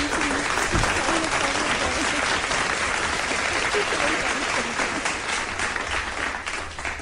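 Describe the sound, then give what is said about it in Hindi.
An audience applauds in a sustained burst of dense, steady clapping that stays loud throughout and tapers slightly toward the end. “फिर तो तालियां होनी चाहिए”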